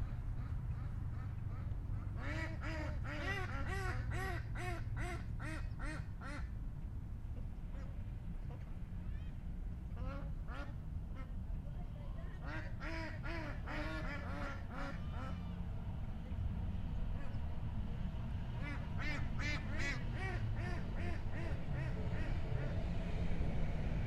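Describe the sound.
Geese honk and quack in repeated bursts of harsh, nasal calls, rising in clusters and then pausing, over a steady low rumble of background noise.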